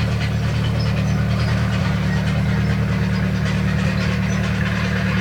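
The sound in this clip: Steady low drone of a running tractor engine, a constant rumbling hum with no pauses or changes in pace, heard alone at moderate loudness.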